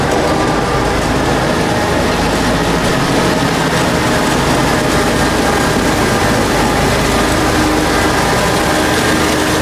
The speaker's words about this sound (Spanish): Y si estáis escuchando esto, es que la Zamboni ya ha arrancado los motores.